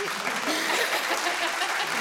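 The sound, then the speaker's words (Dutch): Brief applause from an audience, a dense, steady patter of clapping lasting about two seconds at moderate loudness, with no voices over it. “Krijg ik nou weer applaus?”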